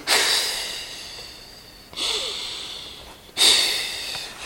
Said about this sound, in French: Expirez loin, expirez loin, vraiment.